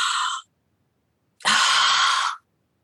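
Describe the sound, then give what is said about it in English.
Deep breath drawn in before holding it with the throat closed, as if bracing to lift something heavy; two breathy hissing bursts, a short one then a longer one after a pause, with no talk. “take a real big breath in and close your throat so that you can hold your breath”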